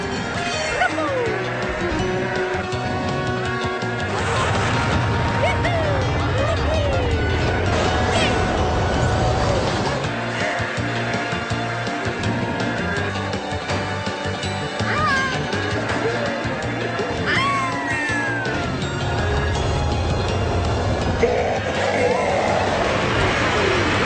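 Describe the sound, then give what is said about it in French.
Mario Kart 8 kart racing on the Flower and Mushroom Cup: a busy, continuous game soundtrack with squeaky character cries, crash effects and a constant rumble beneath. “c'est le moment moment de partir sur le circuit des fleurs et des champignons avec Mario Kart.”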